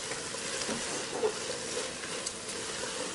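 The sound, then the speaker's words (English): Vegetables and egg fry in a pan on high heat, giving off a soft, steady sizzle with a few faint stirring sounds. “And you can mix all the vegetables together, and I'm gonna turn my heat up on high because we just wanna cook the egg just a little bit in there.”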